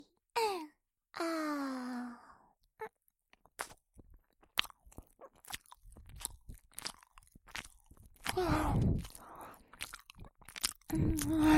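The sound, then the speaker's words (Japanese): Crunchy bites and chewing of food: many crisp, short crunches in an uneven rhythm, with a denser, louder burst of crunching near the end. A brief voiced sigh comes before the chewing. “じゃ、もう一口。”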